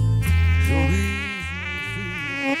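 Mosquito buzzing close to the ear, a thin, continuous high whine whose pitch wavers up and down as the insect hovers, heard alone without voices.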